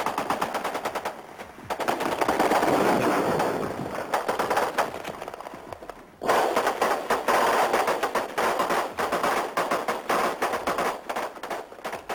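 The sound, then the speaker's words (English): Sustained automatic gunfire during fighting on a bridge in Saigon in April 1975, with dense, rapid bursts of loud cracking shots that briefly drop off before resuming at full intensity. “The mortar hit right in the middle of the gun on the right, 100 yards away.”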